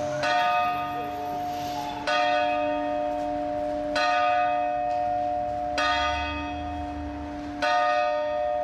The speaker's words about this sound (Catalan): Així és com sonen les hores a Sant Feliu.